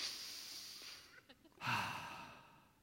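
A deep breath: a soft, drawn-in inhale followed by a louder, breathy sighing exhale, heard alone.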